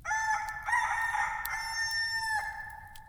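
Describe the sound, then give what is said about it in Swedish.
A rooster crows once in a single drawn-out cock-a-doodle-doo lasting about three seconds. The call is fairly faint and drops in pitch at the end. “gol en tupp.”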